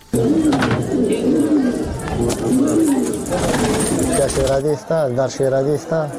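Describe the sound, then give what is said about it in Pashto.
Pigeons coo among pigeon keepers in Kunduz: low, rolling, repeated coos run throughout, mixed with voices talking, and the talk becomes clearer toward the end. “په کندوز کې د کفتر بازانو کار ښه جوړ دی.”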